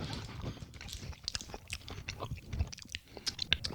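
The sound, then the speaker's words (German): Someone chews a KitKat chocolate bar, producing quiet, irregular crunching and munching with many small bites close together and no talk. “Das schmeckt nie im Leben wie unser normaler Kitkat. Nicht ganz. Die Schokolade hat einen etwas anderen Touch”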